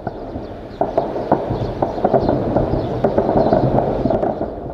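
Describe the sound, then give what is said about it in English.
Gunfire during armed clashes between the military and a paramilitary group in Khartoum, Sudan: many sharp, irregular cracks, some close together and some spaced apart, over a continuous low rumble. “residents of the capital city, Khartoum, woke to the sound of gunfire”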